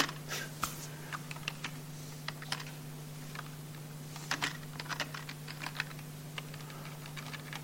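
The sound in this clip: Keyboard typing as an epsilon symbol is entered: many light, irregular key clicks over a steady low hum.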